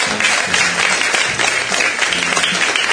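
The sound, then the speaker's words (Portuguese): Applause from a studio audience after a comedy bit on a Brazilian talk show, a steady dense clatter of many hands clapping at full volume for the whole stretch with no voices over it. “Boa, palmas.”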